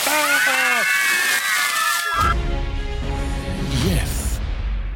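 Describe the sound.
Water poured from jugs onto a towel-covered face, a loud, continuous gushing slosh that begins about two seconds in, preceded by strained screaming voices.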